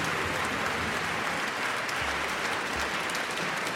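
Audience applause fills a YouTube composers' contest final, a dense, steady wash of clapping that holds at an even level for the whole stretch with no voices over it.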